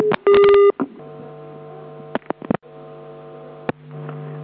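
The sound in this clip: Telephone dialing tones before a call: a short loud burst of keypad tones, then scattered clicks over a steady electrical hum that swells toward the end.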